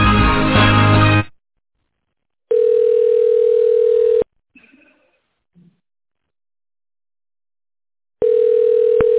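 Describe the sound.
Telephone line tone sounding while a call is connected, heard as long, steady, mid-pitched tone bursts separated by stretches of silence.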